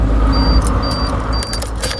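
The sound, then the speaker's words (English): An electric truck made by Teva Motors starts up with a steady, loud low hum. A thin high whine sounds on and off over it, joined near the end by a few brief rattling clicks. “Starting the engine to an electric truck.”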